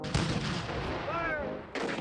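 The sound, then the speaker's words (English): Confederate artillery fire on Fort Sumter, April 1861: two heavy, booming blasts, one at the start and one near the end, with a dense, rolling rumble sustained between them. “Fire! The Confederates fire on Fort Sumter on April 12th and 13th of 1861.”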